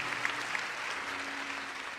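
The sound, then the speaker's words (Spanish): Applause from a church audience during a sermon: an even, continuous wash of clapping at moderate volume, with no voice above it. “Fuertes aplausos para Dios.”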